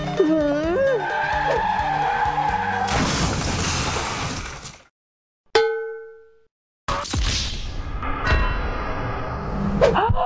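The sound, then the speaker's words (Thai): Cars skid and crash: a high, wavering tyre squeal gives way to loud crunching impacts with clanging metal and shattering glass. A bright bell-like ding rings in a short silent gap, then more smashes and clangs follow. “เมื่อกี้รถชนกันหรอขับรถประสาทอะไรกันเนี่ย”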